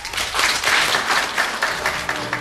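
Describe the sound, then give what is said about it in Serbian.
Applause from an audience at the end of a book presentation in 1988: dense, continuous clapping that holds at a fairly even level throughout. “Ovaj aplauz iz 1988. godine upućen je Darinki Simić-Mitrović na kraju predstavljanja knjige Da Capo al Infinito.”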